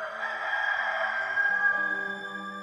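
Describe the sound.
A rooster crows in one long, drawn-out call that holds a bright, steady pitch for the whole clip. It is fairly faint against low, sustained tones that shift in steps underneath.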